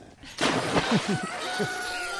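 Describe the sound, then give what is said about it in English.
A rooster crows on a farm with goats nearby, giving a sustained mid-pitched call alongside a few short, harsh, lower calls that drop in pitch, all fairly loud with no talking. “And the rooster's already going.”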